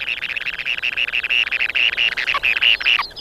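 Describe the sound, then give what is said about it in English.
A male and a female bird chatter to each other as they swap incubation duties at the nest, a rapid stream of high, bright chirps repeating throughout without pause, heard alone. “The male and the female will share incubation duties, and they'll chatter to each other just like this every time they change shifts.”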